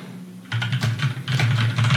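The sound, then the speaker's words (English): Rapid typing on a computer keyboard: a dense, loud run of clicking keystrokes starts after a short quiet moment and continues steadily. “I just typed it in.”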